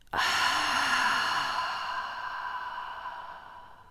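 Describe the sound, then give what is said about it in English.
A person breathes audibly during a guided breathing exercise: one long, airy rush of breath that starts abruptly and fades slowly over several seconds. It is loud and heard alone, with no talk. “Breathe in and exhale out.”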